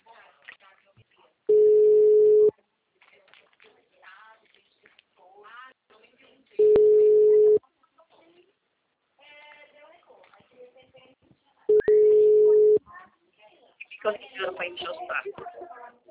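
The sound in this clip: Steady ringback tones from an outgoing phone call, three evenly spaced rings about a second long each. People talk between the rings, and livelier voices close the stretch.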